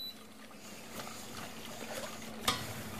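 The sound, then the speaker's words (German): A spoon stirs a pudding mixture in a pot until it boils, making a soft, continuous scraping swish at low volume. One sharper tap sounds near the end. “Jetzt rühre ich so lang, bis es sich einmal so aufgekocht hat.”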